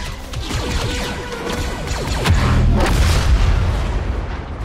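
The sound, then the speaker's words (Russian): A grenade explodes in a shooter video game with loud crashing blasts and deep booming rumble, followed by a dense clatter of debris-like impacts that swell and then fade. “На самый крайний случай имеется граната, подорвать себя или супостатов. Это смотря куда ты ее кинешь.”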